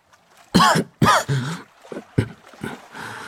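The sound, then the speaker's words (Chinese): Several coughs from a man, the first two loud and sharp, then softer, throaty coughs in an uneven rhythm with no talk. “咳嗽了几声”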